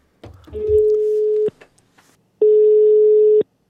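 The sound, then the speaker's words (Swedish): Ringback tone of an outgoing telephone call: two long, steady mid-pitched tones, each about a second, separated by a pause, with a brief faint noise just before the first. “Jag har ringt upp Hans Ola för att berätta att jag kommer att undersöka hans fråga.”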